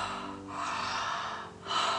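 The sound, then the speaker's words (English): Connected breathing through the mouth, inhales and exhales running together without pause: loud, breathy rushes of air that swell and ease over a few cycles, with no talking. “the connected breath is inhaling through the mouth, exhaling through the mouth,”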